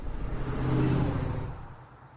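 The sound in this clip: A car being driven, heard as a steady engine rumble and road noise that swells in the middle and then slowly fades.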